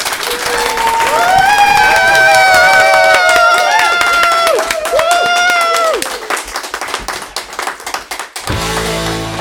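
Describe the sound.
A live audience applauding and cheering in the room: dense, loud clapping under sustained cheering voices, easing and turning patchier toward the end.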